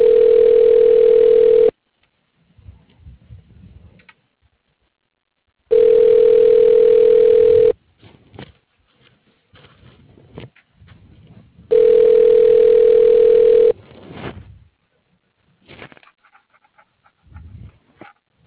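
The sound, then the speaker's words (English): A steady telephone line tone plays while a call is being transferred, sounding three times as long, loud, even beeps of about two seconds each, with quieter breathy noises in the gaps between them. “You can please hold while I transfer your call.”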